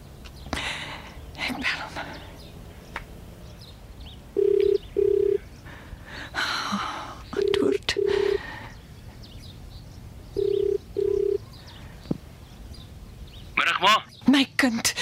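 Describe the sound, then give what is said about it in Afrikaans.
Telephone ringback tone as a call is placed in an Afrikaans radio drama, heard as three evenly spaced double rings, steady and clear over faint rustling background noise. “Miskien moet ek eers net vir Andre bel.”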